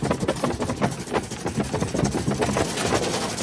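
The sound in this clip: Engine of a red cart as it is driven, a steady, continuous rumble with slight fluctuations that holds at an even level throughout.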